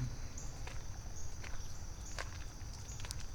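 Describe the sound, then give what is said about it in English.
Slow footsteps of someone walking out of a large bird blind, a few soft, evenly spaced steps over a steady high insect drone and a low rumble. “So I'm just going to turn around, walk out of the big blind, and head back the way I came.”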